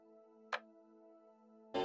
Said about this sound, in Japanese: またカチッと時計の針が戻る。